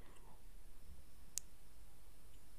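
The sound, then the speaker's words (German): A computer mouse gives a single sharp, short click that stands alone against a quiet background. “Ich habe die Maus wieder angefasst.”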